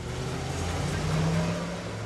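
A car driving through the Pittsburgh neighborhood of Atlanta, just off McDaniel Street, a steady low engine and road rumble that swells slightly in the middle.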